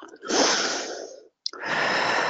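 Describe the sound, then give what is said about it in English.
Forced breathing: two long, loud, breathy rushes of air separated by a short silent pause, the second starting with a sharp intake. “All right, who is doing the forced breathing? Me.”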